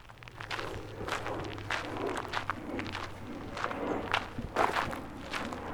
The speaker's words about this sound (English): let's take a trip with Jeremy out to Cedar Ridge Preserve, a popular destination for hiking in South Dallas, and see what people are doing to stay hydrated.